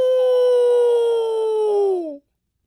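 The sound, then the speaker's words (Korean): A wolf howl in a spoken children's folktale: one long, clear, tonal cry that holds an even pitch for about two seconds, then slides down and stops abruptly. “어, 늑대다.”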